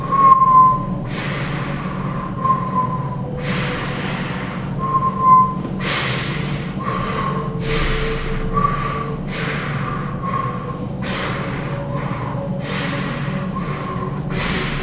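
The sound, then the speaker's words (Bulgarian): Deep rhythmic breathing during a breathing exercise: a steady series of loud, breathy inhales and exhales, each lasting about a second, repeating evenly throughout with no speech. “Просто дишай. Дишане, което само води, което кара тялото да събуди клетъчната си памет,”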